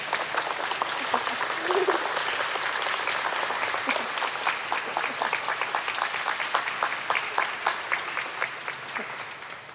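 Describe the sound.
A church audience applauds two children after their baptism: sustained clapping from many hands that holds steady and thins slightly toward the end.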